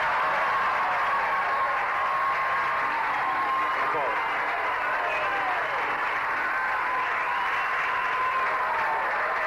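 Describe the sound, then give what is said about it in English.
An audience applauds to welcome the Soviet embassy's press chief forward, a steady, dense clapping that holds at the same level throughout while a voice speaks over it. “Will you come forward?”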